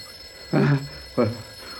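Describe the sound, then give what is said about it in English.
A telephone rings in two short, loud, trilling bursts separated by a brief pause. “Who'd call us? That fool phone hasn't rung in weeks.”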